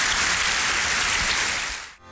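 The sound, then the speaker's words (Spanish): Applause from an audience at a church service: dense, steady clapping that holds evenly and then stops abruptly near the end. “Dele un buen aplauso al Señor.”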